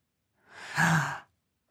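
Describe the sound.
A deep breath drawn in and blown out hard by a young dragon trying to breathe fire, heard as a single breathy rush that swells, peaks and cuts off, alone and fairly soft.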